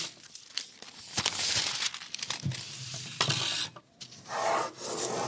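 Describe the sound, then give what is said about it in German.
A pencil scratches and rubs on paper as an eleven-storey high-rise building is drawn, including a fine crack on the fifth floor: many irregular rasping strokes in short bursts with brief pauses between them. “Pablo zeichnet sein 11-stöckiges Hochhaus.”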